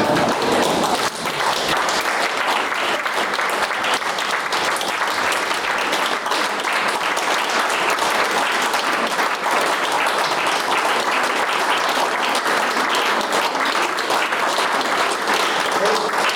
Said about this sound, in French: On peut peut-être tous se lever pour applaudir Philippe.